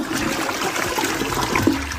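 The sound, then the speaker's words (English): Running toilet water rushes in a steady, continuous flow with a broad hiss and no breaks, fairly loud and alone, with no voices. “And that running toilet, hundreds of gallons a day.”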